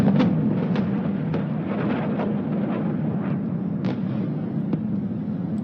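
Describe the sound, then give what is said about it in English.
Missile strikes during an Iranian missile attack on Tel Aviv land as a few sharp, booming blasts scattered over a constant low, rumbling roar. “Air raid sirens are sounding across Israel as missiles are fired by Iran. Plumes of smoke are visible in Tel Aviv. This is what it sounds like in the city.”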